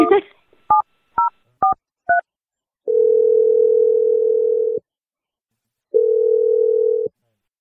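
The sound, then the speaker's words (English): Telephone keypad tones while calling someone: a few short, quick dialing beeps, then two long, steady ringing tones separated by a silent gap. “We're just going to dial Jack and see what he has to say, okay?”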